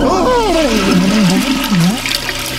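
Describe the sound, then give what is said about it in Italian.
A toilet flushes with a continuous rushing, gurgling wash of water, overlaid by a wavering, warbling tone that rises and falls throughout. “Affoga nel water, con le feci nelle fauci e il corpo incastrato nelle tubature.”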